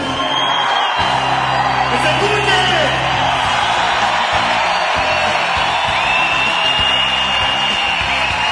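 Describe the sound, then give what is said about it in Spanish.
Loud crowd shouting and whooping at a workers' gathering, a dense, sustained roar of many voices that fills the whole clip without pause. “Gritemos fuerte para que los compañeros de CAPE sepan que los estamos esperando.”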